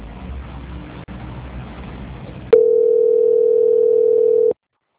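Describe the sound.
Telephone tone during a call transfer: faint line hiss first, then a single loud, sustained mid-pitched beep lasting about two seconds that stops abruptly into silence.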